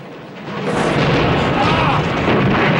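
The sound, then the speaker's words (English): Fuel pumps at a motor dealership explode in a huge fireball: a quieter opening gives way to a sudden loud burst that swells into a heavy, sustained rumbling roar. “The fuel pumps explode in a huge fireball, throwing Diggs and Sorensen to the ground and demolishing Marvin's Motown Motors.”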